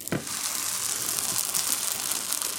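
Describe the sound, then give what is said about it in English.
Steady, bright sizzling hiss as sourdough bread is laid dry onto a hot grill pan, with a short soft knock at the very start and then an even, crackly texture. “I'm going to go ahead and throw my sourdough onto my grill pan. Again, I'm just putting them on there dry”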